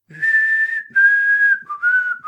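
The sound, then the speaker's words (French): A person whistles a wedding march melody, giving a few clear, sustained notes at a steady bright pitch, the later notes slightly lower, alone and with no other sound. “Je vais siffler la marche nuptiale de Mendelssohn.”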